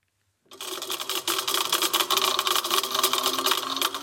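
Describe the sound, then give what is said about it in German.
A laboratory grinding cup whirs and rattles as it crushes three tablets into powder for a chemist at Swissmedic, starting abruptly after a brief silence and holding a steady, buzzing mechanical churn. “Sie zerkleinert gerade 3 Tabletten in einem Mahlbecher. Dann haben wir schon homogenes Pulver.”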